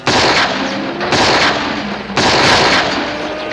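Revolver gunfire aimed at a cattle rustler on a chestnut horse, heard as loud, harsh bursts of noise that run together with almost no quiet between them.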